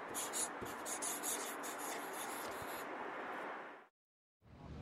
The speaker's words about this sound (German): Ich schreibe auch Hi. Was schreibe ich jetzt?